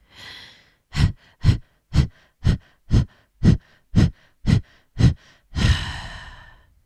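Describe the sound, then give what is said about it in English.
Fire breath, a rapid breathing exercise: a soft breath, then nine sharp, forceful, evenly spaced breaths at about two per second, ending in one long, loud, trailing exhale, with no talk. “And now begin a fire breath in and out of the womb area.”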